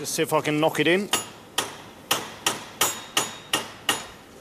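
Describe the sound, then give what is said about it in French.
Sharp metallic taps come from an Allen key and a bolt being used to work loose a badly worn screw holding a disc, struck in a steady, evenly spaced series after a person briefly speaks. “Ma clé Allen tourne dans le vide. Je vais utiliser ce boulon pour voir si je peux virer la vis.”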